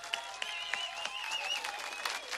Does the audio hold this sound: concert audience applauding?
yes